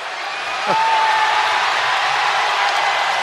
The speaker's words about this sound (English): Crowd responding to him stepping into the penalty box, but he wouldn't go in there unless he had a penalty.